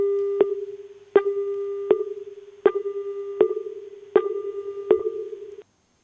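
A busy tone from a phone call that fails to connect on a poor network: a steady low-mid hum runs throughout. Sharp clicks cut in at a regular pace, about seven of them, each followed by a slowly fading level.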